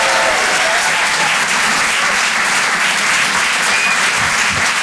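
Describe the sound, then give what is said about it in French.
Comedy club audience applauds a musical act, steady, dense clapping at an even, loud level throughout with no pauses. “Faites du bruit, s'il vous plaît, pour Nikos sur les chansons.”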